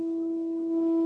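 A steady, sustained low electronic tone from a light-detector phone app for blind users, signalling total darkness; the pitch holds level and the sound grows slightly louder near the end.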